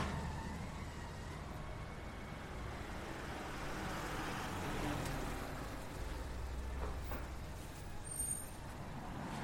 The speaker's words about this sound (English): So we've reached the next corner in front of a busy road